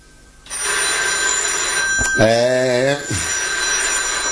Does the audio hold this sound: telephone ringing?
yes